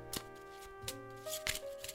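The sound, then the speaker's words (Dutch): A deck of playing cards being shuffled for a card trick, with a few crisp papery riffling bursts separated by short pauses and steady sustained tones underneath. “Nu ga ik de pakkaarten schudden.”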